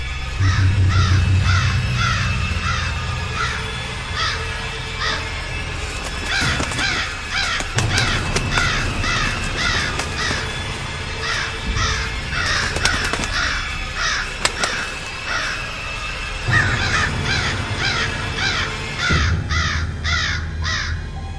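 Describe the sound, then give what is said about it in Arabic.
Crows caw throughout: many harsh, repeated calls in overlapping series over a steady background, loud and continuous from start to finish. “وبمجرد ما النور وصل وقع الغطا عليا وبدا يطير من ورا الغطا غربان.”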